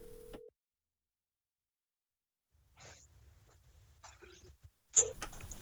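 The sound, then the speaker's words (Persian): A telephone call cutting out: a short steady busy-signal tone breaks off into dead silence, then faint crackly line noise returns with a sharp click near the end. “نمیفهمم مشکل چی است که تماس قطع میشه و من نمیتونم صحبت داشته باشم.”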